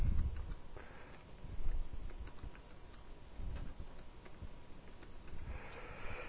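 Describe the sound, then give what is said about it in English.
Typing a search on a computer keyboard: quiet, irregular keystroke clicks tapping away in quick runs with brief pauses, no voices over them. “I guess I could search for that. That's the passage I'm looking for. I typed it in wrong.”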